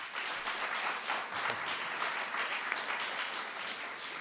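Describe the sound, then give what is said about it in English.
Audience applause at a national Thanksgiving turkey presentation ceremony, dense, even clapping that holds at a steady level from start to finish. “Give them a big round of applause”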